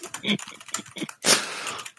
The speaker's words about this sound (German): Dann kann ich jetzt hochoffiziell den Zettel zu dieser Ausgabe in den Schredder schmeißen.